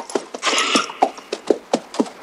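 Horse hooves clopping as a rider sharply reins in and turns the horse: many hollow hoofbeats in an uneven, quickening rhythm, with a brief scuffing rush of noise among them.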